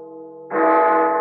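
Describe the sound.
Large bell ringing in a town plaza in Cochabamba: a sustained, humming tone that swells suddenly louder and brighter partway through and holds steady to the end, alone.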